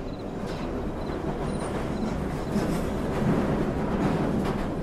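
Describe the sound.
A subway train pulling away, heard as a continuous loud rumbling roar that holds steady and swells slightly toward the end, with no voices.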